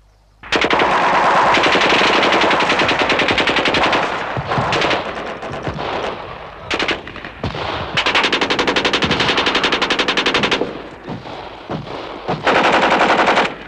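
Machine gun fire from a detachment shooting downhill from a hilltop at men surrounding houses: loud, rapid bursts of automatic fire, several long volleys broken by brief pauses and a few isolated sharp shots.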